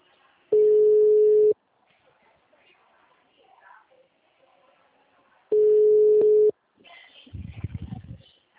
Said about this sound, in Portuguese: Tô ligando